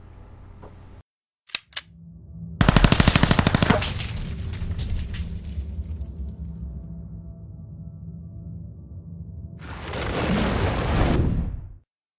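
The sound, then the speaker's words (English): Rapid gunfire from a ghost gun fitted with a 30-round magazine: a couple of sharp clicks, then a fast, rattling burst of many shots that trails into a sustained roar. A second loud swell of noise follows near the end. “This is a ghost gun. This right here has ability with a 30 caliber clip to disperse with 30 bullets within half a second.”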